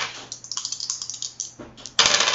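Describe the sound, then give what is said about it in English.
About forty four-sided dice roll during a tabletop role-playing game. A rapid run of sharp clicking taps ends in a louder, dense burst of rattling clatter. “Sounded like a lot of dice. It's just a bunch of d4s, don't worry.”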